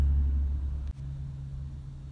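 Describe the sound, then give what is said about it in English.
Traffic passes outside a garage as a faint, steady low rumble that breaks off briefly and then resumes. “I'm in my garage. I got fucking cars going by. And you can probably hear that in the background”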